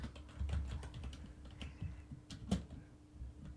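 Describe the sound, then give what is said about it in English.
Faint, irregular clicks of keys on a computer keyboard as a word is typed in. The soft keystrokes come in a quick, uneven run throughout. “So just type the word.”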